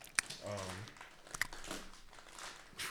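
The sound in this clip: Crinkling plastic and tearing as glued product packaging is pulled open near a microphone, with sharp crackles and a snap among rustling. A voice briefly sounds alongside.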